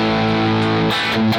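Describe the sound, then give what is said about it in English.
Electric guitar played through a distortion pedal for lead solo tone, holding a thick, buzzy, sustained note that breaks into choppier, rougher picking near the end. “Now, I do have a distortion pedal here, so if I was to do this,”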